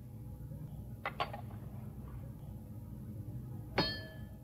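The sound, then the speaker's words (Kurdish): A struck bowl rings with a bright metallic tone that sustains and slowly fades near the end, after two quick, faint clinks earlier on. “لەرینەوەی کاسەکە هیچ باش نەبوو.”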